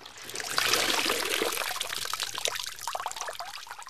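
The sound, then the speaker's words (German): Water trickles and dribbles as it is squeezed out of apple mush, a continuous wet splashing that lasts a few seconds with small crackly squelches mixed in. “Hier wird dann noch Wasser aus dem Brei herausgepresst. Ungefähr so.”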